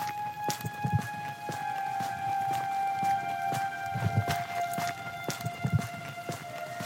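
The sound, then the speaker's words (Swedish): Footsteps walking up to a cottage: several soft, spaced thuds over a steady high-pitched hum, with no talk. “När jag går fram till torpet möts jag av en ung man i tidiga 20-årsåldern som är märkbart skakad.”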